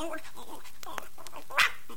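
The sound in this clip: A puppy barks: one sharp, high-pitched yip bursts out loudly near the end, over quieter vocal sounds.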